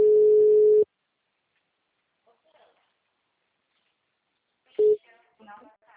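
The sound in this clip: Telephone tones sound while a call is being placed: a steady tone lasting under a second, a long silence, then a short second beep, followed by a voice.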